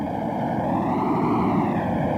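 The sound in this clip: Aircraft droning overhead during the D-Day bombing of German positions, a dense, steady roar with no breaks or distinct blasts, loud and unchanging throughout.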